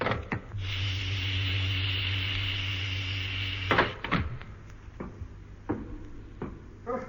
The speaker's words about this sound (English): Hatch opening.